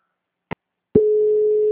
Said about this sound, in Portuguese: tá chamando aí